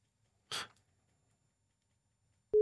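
A telephone ringing tone on an outgoing call, starting near the end as a loud, steady, low-to-mid pitched tone after a short noisy breath-like burst and silence.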